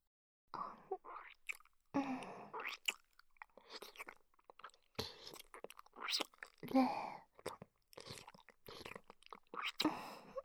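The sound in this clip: Close, wet chewing and crunching as food is tasted, heard in many irregular bursts with short gaps, and a soft murmuring voice appears at times.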